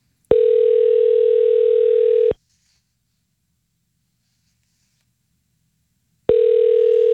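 Ring-back tone of a telephone call that is about to reach voicemail: two long, steady electronic rings, each about two seconds long, with a long silent gap between them. The second ring is cut off at the end.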